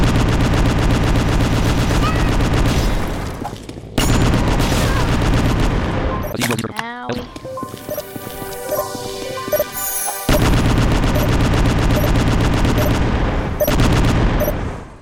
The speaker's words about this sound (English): Just you have to kill the zombie guy via normal means, which is to say, I'm gonna use my Omega shooter gun.